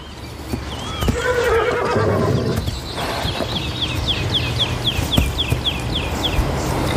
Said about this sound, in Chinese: 这个野马群大约有400匹野马，它们的未来取决于领头的种马。